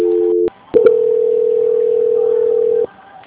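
Telephone line tones play while a call is being transferred. A steady dual tone cuts off briefly, a couple of clicks follow, then a single unbroken tone holds for about two seconds before dropping to quiet line hiss.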